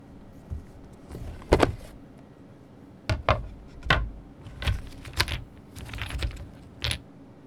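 A game board with holes and sixteen variously shaped pieces being taken out, heard as many irregular hard clicks and clacks with uneven gaps between them and no talking.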